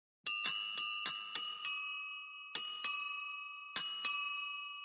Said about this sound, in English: Bell tree.